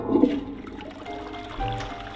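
Toilet flush sound effect: a rush of gurgling water that surges at the start, settles into a steady wash, then swells again near the end.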